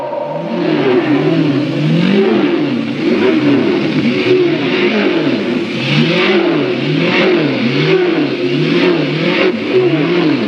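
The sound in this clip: Racing car engines rev hard at the start of a round-the-world Grand Prix race. The loud, continuous roar repeatedly climbs and falls in pitch as the throttles are worked, with no talk.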